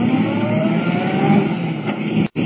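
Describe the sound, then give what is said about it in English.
In a radio drama, a car speeds out of a sanatorium driveway onto a concrete main road at 70 miles an hour. The engine gives a sustained, loud rumbling roar that drops out abruptly near the end. “Swinging out of the sanatorium driveway, Clark Kent hits the smooth concrete of the main road, traveling at 70 miles an hour.”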